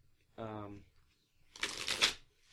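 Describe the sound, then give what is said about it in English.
Tarot cards are shuffled in a short, rustling burst of papery riffling and flicking. A brief voiced sound comes just before the shuffle. “Okay, so that's enough shuffling for now,”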